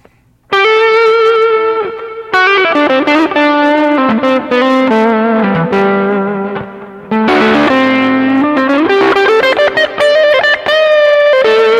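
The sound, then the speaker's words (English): An electric guitar plays through a Wampler Dual Fusion distortion pedal set to low gain. It gives loud, sustained overdriven chords and single notes with a gritty edge, played alone. “I have this this great distortion called a dual fusion, which is actually 2 distortions in one. Actually, 3 because you can stack the 2 together.”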